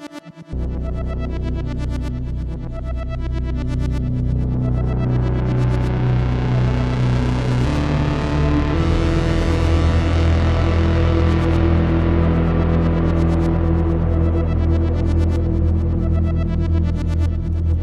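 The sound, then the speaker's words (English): Korg monologue synthesizer playing a sequence through reverb and delay over a low bass note held on a Sub 37 synth. The sound is continuous and loud, with a tone that opens brighter through the middle and then mellows again. “Right now you're hearing the Korg monologue doing a sequence with some reverb and delay effect on there. My Sub 37 is playing the low note right here.”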